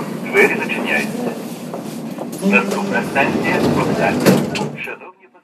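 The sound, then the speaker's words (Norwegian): An old, rattling Kyiv metro train runs deep underground, its carriages clattering and thumping with a sliding-door sound, while voices talk over the noise before it cuts away at the end. “i Kivs metro, dypt under bakken i den ukrainske hovedstaden, er det lett å se at landet og innbyggerne sliter akkurat nå. Vognene er gamle og skranglete”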